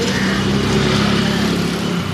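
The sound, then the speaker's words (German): Steady engine drone of traffic in a side street in Delhi's city centre, a loud continuous motor hum with no breaks. “Eine Seitenstraße in Delhis Innenstadt.”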